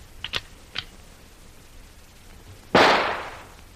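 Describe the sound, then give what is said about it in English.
A rifle fired as a warning: two faint clicks come first, then a single loud, sharp shot that rings out and fades slowly. “Here is the rifle, Hannes. Let me have it. This will be a little warning for them.”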